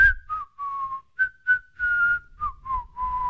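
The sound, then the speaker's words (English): Quiet whistling through the teeth, a soft tune of about nine short and sustained notes at a steady mid-high pitch, wavering slightly between phrases, with no voices. “a cold, quiet whistle between his teeth”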